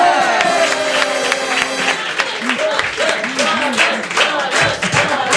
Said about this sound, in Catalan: Estan corejant el nom del seu poble. És que, Blanes, Blanes. No, és que no. És que en aquella fila ja n'hi ha pocs de Blanes, eh? És a dir, i estan cridant Blanes.